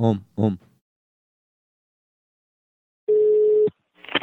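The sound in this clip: A single steady electronic beep, lasting just over half a second, from a telephone being dialed for a call. Brief voice sounds come just before and just after it.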